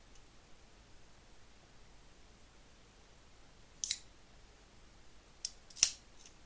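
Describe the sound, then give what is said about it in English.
A can of Tango soft drink being opened, three faint, short, sharp clicks after a long quiet stretch, the final click the loudest. “No, I was opening a can of Tango.”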